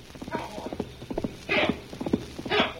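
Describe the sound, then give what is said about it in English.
Horse hoofbeats coming down a trail, a rhythmic clip-clop of hooves striking in quick clusters, fairly soft and heard without voices. “We hear someone coming down trail. Yes, I hear hoofbeats, too.”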